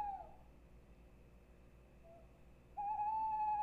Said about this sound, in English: Is it an animal? Yes. It's not a loon? Nope. Is it an owl? Yeah.